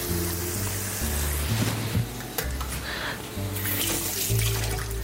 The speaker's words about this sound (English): All right, a little rinse of the hand.